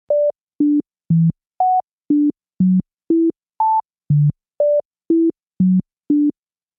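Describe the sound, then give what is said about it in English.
A well-known melody plays as 13 pure, evenly spaced synthetic tones. The tune is kept, but each note is shifted into a different octave, so the pitch leaps unpredictably up and down from note to note. “Diana takes a well-known tune, doesn't change the melody, just changes the range.”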